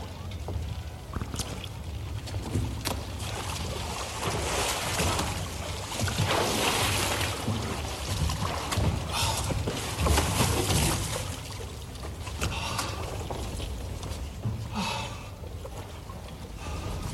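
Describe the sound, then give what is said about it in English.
Someone climbs into a boat on the water, with sloshing, hissing water noise and scattered knocks and bumps over a steady, wind-like wash. No voices can be heard. “You can't just climb into my boat.”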